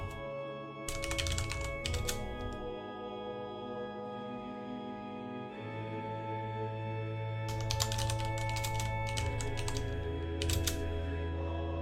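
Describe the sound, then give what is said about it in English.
Typing on a computer keyboard: a few bursts of rapid, light key clicks separated by pauses, over a faint steady hum. “Almost done typing.”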